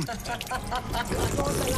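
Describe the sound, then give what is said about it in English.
Water pours from a public fountain as bottles are filled, giving a steady splashing rush that runs under people talking throughout. “Come along filling bottles and all that.”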